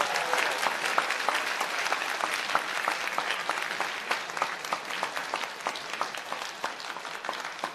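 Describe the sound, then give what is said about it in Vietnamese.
Audience applauding in a hall after a speech, with many hands clapping in a dense, even patter that holds steady throughout at moderate volume. “Và khi ông David Lack kết thúc bài phát biểu của mình, cả hội trường đã cùng vỗ tay.”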